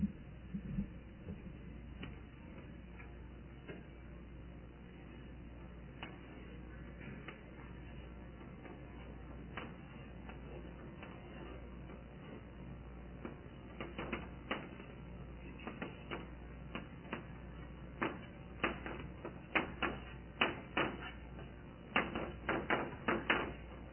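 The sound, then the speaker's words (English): Chalk taps and scrapes faintly on a blackboard as a sketch is drawn, giving many irregular small clicks and knocks that grow denser and sharper toward the end, with no talking. “So I'm going to just put a sketch on the board.”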